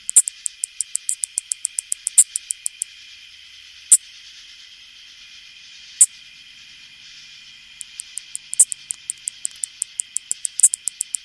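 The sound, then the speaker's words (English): Two male anglewing katydids calling: rapid, evenly spaced runs of sharp, high ticks, then a quieter stretch with a few isolated louder clicks, before the ticking runs return, all over a steady high insect hiss. “Lang Elliott and Will Hirschberger recorded the sounds of these two male anglewings.”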